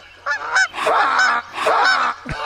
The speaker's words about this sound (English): Well, speaking of passing by, there's some geese passing by.